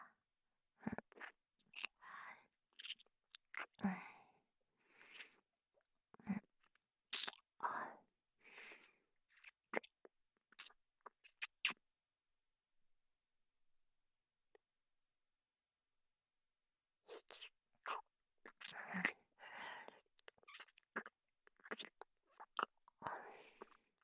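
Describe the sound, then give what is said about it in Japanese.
Biting and chewing ice cream: bursts of soft crunches and moist mouth noises come in quick clusters, stop for a few seconds, then start again. Breathy, whisper-like sounds are mixed in. “とりあえずアイスでも食べるか。”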